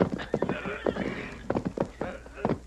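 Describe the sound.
A horse whinnies and its hooves clip-clop in a western ranch scene, with loud neighing and many irregular, hollow hoof clops.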